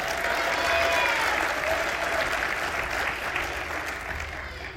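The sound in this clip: An audience at a testimony gathering applauds to welcome a speaker, with dense, steady clapping that holds throughout and eases slightly toward the end.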